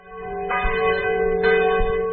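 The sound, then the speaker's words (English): Abbey church bells toll in Champagne, France: two clear strikes ring out over a sustained, humming resonance that carries through the whole clip. “Bells toll at this abbey in the French region of Champagne, where Dom Pérignon is buried”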